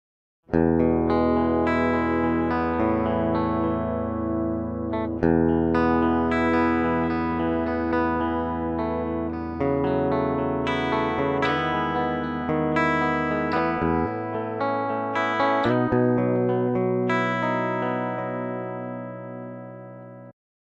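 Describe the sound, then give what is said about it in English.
Electric guitar played straight into an audio interface through a pedal board with every effect switched off, giving a clean tone. Sustained chords and ringing single notes follow one another steadily at moderate loudness, with no talk. “let's get started with my tone directly into the interface, running through the pedal board, but with all effects, including the Geneva, switched off.”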